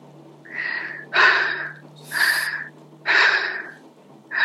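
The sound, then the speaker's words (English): Heavy breathing during a prayer session: loud, forceful breaths in and out, alternating in a regular rhythm. Each rush of air is strong and hoarse, with brief pauses between breaths and no talking. “Just breathe in and out 5 times heavily. Breathe in and out 5 times heavily.”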